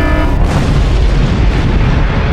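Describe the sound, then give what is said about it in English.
Starship assault phasers firing in a science-fiction space battle, a loud, continuous, booming roar of dense blast energy with no pause, deep rumble under harsh crackling noise throughout. “Charging assault phasers.”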